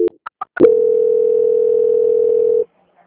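A telephone tone plays during a call transfer. A few brief clicks and blips come first, then one steady, unbroken mid-pitched tone holds for about two seconds and stops abruptly.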